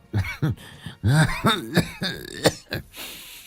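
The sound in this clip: Hard, hacking coughs from an old woman, many rapid voiced bursts with rough throat-clearing, irregular in rhythm and fairly loud, ending in a breathy rasp.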